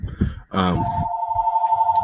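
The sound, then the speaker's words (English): A mobile phone rings in the middle of a talk, giving a steady, continuous electronic tone. A voice speaks briefly just before the ring starts. “I apologize, my phone's ringing.”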